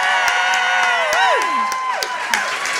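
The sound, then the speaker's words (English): A live audience applauds, cheers and whoops to welcome a guest onto the stage, with bright rising and falling whoops over steady clapping and crowd noise. “Ladies and gentlemen, please put your hands together for the creator of Derry Girls. It's Lisa McGee.”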